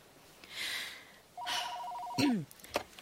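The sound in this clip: A telephone rings once in a short warbling electronic trill, fairly faint, with soft rustling noises before and after it.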